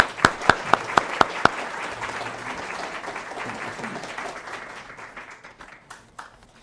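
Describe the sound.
Audience applause welcomes a speaker. Six sharp, evenly spaced claps stand out at the start over building clapping, which then spreads into full, dense applause that gradually thins and fades toward the end.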